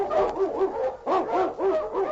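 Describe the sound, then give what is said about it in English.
An Eskimo husky lead dog barks in a storm, giving a rapid run of sharp, yipping barks with a few whimpering notes, fairly loud and alone. “The wonder dog, King, swiftest and strongest of Eskimo lead dogs, blazes the trail through storm and snow for Sergeant Preston”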